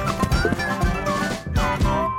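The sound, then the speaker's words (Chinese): Feet stomping and jumping up and down, heard as a run of heavy, uneven thumps and stamps over a steady tonal musical background. “于是，小狮子跟着牛铃和斑马跳上跳下，又踩又踏。”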